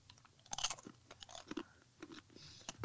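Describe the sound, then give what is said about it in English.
Crunchy snack being chewed, with many faint, crisp crunches and bites in an irregular rhythm and no talk over it. “So crunchy. So if a man with no teeth will have a hard time eating crunchy munchies, you want your front teeth.”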